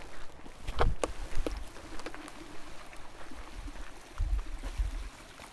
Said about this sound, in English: That's the sound of a lovely flowing stream.